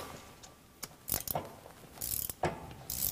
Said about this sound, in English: So to start, take off these 12 millimeter bolts right up here near the transmission. Start with a breaker bar. Then you can hand crank these off.